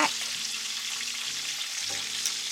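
Chicken and bacon brown in a pan with a steady, crackling sizzle of frying fat, fairly quiet and continuous, with a low steady hum beneath and no talking.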